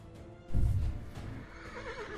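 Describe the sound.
A horse's whinny, used as a sound effect in a tabletop fantasy game scene, comes as a faint, quavering neigh with a wavering pitch in its later half. A brief low thump sits under it early on.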